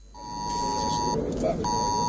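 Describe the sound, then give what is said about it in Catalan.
An emergency alert tone sounds on mobile phones and smartwatches during an alert test in the Girona and Central Catalonia districts. It is a steady, piercing electronic beep that cuts out briefly, then resumes over a constant background noise. “Puntual, a les 10 del matí han començat a sonar els telèfons mòbils i dispositius com rellotges intel·ligents”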